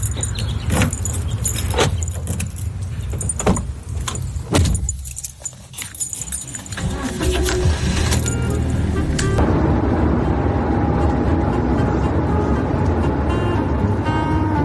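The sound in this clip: A bus starts off with passengers aboard. First come several sharp clinks and jangling keys, then a steady engine hum builds and carries on evenly to the end.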